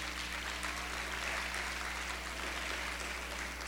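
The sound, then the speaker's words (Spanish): Applause from an audience in a church, a steady dense wash of hand clapping that holds at an even, moderate level throughout with a low steady hum beneath it. “Denle un aplauso a ella.”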